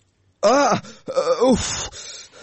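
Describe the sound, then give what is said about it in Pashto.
A person moaning and crying in their sleep during a bad dream gives two loud, drawn-out, wavering sobbing moans, each sliding up and then down in pitch, with a breathy tail after the second. “خوب کې دې ژړل؟”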